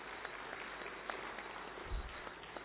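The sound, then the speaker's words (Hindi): Applause from an audience standing at an army function, a dense, steady patter of many hands clapping, faint and unbroken throughout. “Kindly खड़े हो जाइए, और जोरदार तालियां।”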